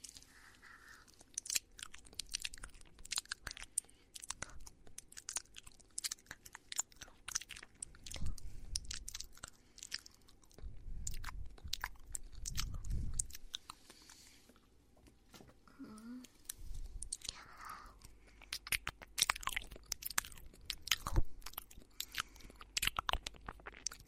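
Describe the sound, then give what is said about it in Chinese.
Someone eats crunchy food, chewing with many quick, crisp crunches and bites in an uneven, steady patter, fairly quiet throughout. “你减肥好了，我要吃了，你就看着我吃好了。”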